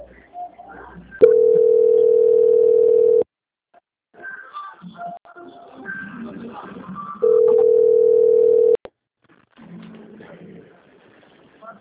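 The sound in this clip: A telephone line holds a steady, mid-pitched tone while a call is being transferred. Two long, even tone stretches of a couple of seconds each are separated and followed by quieter, busier sounds that include voices.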